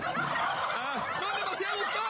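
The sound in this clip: Turkeys gobble in a dense, overlapping chorus. The rapid, bubbling gobbles go on without a break and stay loud throughout.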